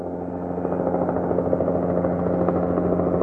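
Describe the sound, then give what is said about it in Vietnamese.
Helicopter rotor blades thrum in a steady, loud low drone with a fast beating pulse. The sound continues unbroken for the whole stretch, with no voices. “Tiếng cánh quạt trực thăng mỗi lúc một rõ ràng hơn.”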